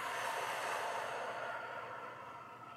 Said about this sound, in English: Take a deep breath in through the nose, out through the mouth,